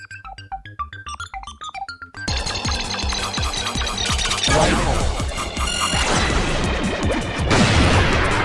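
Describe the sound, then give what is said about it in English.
A ship crashes into a moon rock in a space shooter video game. Short electronic blips give way to a sudden loud, harsh crash, followed by sustained noisy game effects with further bursts. “Yep, I just hit that moon rock. But I shot it after, because you don't lose your side laser.”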